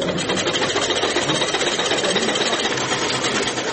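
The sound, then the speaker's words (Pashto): Several sewing machines run together in a tailoring workshop that once had many machines and now keeps only a few working. They make a dense, steady whirring and rattling drone that continues unbroken throughout, with no talk. “په دې خیاطي کارخونه کې چې یو وخت ګڼ شمېر ماشینونه چلېدل اوس یوازې څو محدود ماشینونه فعال دي.”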